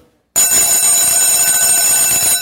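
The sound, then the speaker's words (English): A bell rings loudly and continuously. The bright, metallic ring starts abruptly after a brief silence and holds steady to the end. “You keep ringing the bell. Hey, wait, he's trying to teach.”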